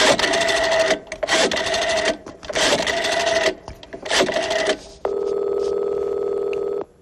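A telephone number being dialed: several loud, buzzy, rattling bursts separated by short gaps, then a steady, even electronic tone that holds for about two seconds.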